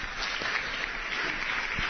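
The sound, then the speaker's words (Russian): Stormy applause from an audience at a Russian-language gathering; many hands clap in a dense, unbroken wash at a moderate, even level, with no voices. “Бурные аплодисменты.”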